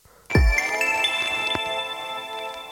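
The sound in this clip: A telephone rings as an outgoing call is placed. A bright, sharply starting ring tone with steady harmonics sustains throughout, with a second strike partway through, and no voices.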